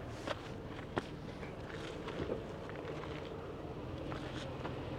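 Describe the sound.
Footsteps trudging up a snowy mountain, a steady tread of soft, muffled steps with a few sharper crunches standing out.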